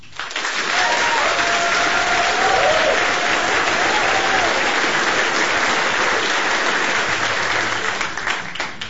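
Audience applause welcomes a singer and his musician partner back to the stage at a live music show. The clapping is loud and sustained, with a few gliding whistles near the start.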